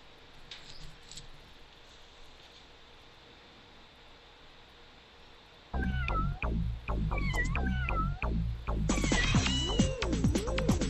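A cat meowing: after several quiet seconds, a loud burst of repeated meows begins and runs into longer, wavering, caterwauling cries near the end, with no voices.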